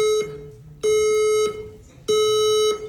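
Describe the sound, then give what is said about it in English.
Loud electronic beeping of a fire alarm going off during a fashion show in a gallery: harsh, high, buzzy tones repeating in an even on-off rhythm, each lasting well over half a second, with quieter gaps between. “That's a fire alarm. That's not part of the show.”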